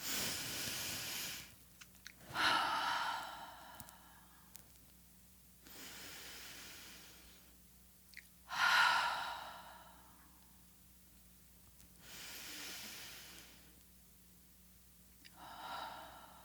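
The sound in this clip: Three deep breaths follow one another, each a slow inhale through the nose and then a louder, breathy exhale through the mouth, all quiet, with no talking.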